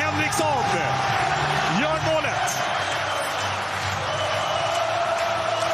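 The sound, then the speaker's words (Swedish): A loud, sustained roar from a stadium crowd cheering a goal in a Swedish top-flight football derby, with a commentator talking over the din throughout. “Gais gör 1-0 i återkomsten i ett allsvenskt derby. Och det är ett hejdundrande jubel”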